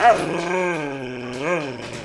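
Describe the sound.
A dog growling, a pet that scares house guests: one continuous, drawn-out, voiced low rumble with a tonal quality, swelling slightly upward in pitch near the end.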